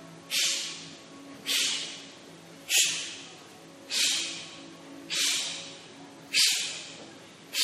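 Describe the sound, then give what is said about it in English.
Short, forceful exhales from an exhale-only breathing exercise, with the inhale left passive, form a steady series of breathy bursts evenly spaced about a second apart, each starting sharply and fading quickly. “Just let your belly relax, and a little breath will naturally come in without you even thinking about it. So it's just the exhale, like so.”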